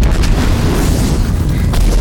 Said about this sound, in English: As the explosion tosses the closest militant vehicle